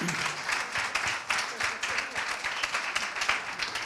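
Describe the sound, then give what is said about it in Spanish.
A church audience applauds a young man, dense, continuous clapping at a moderate, fairly faint level that keeps an even texture throughout. “Un aplauso a este joven, hermanos.”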